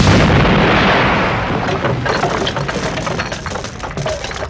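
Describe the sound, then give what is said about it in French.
A bazooka fires inside a cave: a loud, broad blast at the start rolls into a long, rumbling decay scattered with crackles and pops. “Madame You, plus adepte de la technologie, s'empare d'un énorme bazooka. Oh, comment ça marche ce truc ? Ah oui, comme ça ?”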